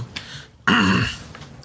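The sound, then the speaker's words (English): A single throat clearing: one short, voiced rasp of about half a second that rises briefly in pitch and then holds. It stands alone between stretches of quiet. “Clear your throat. Get that throat cleansed.”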